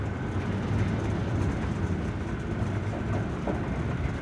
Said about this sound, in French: Dans la gare, je tombe nez à nez avec l'Orient Express.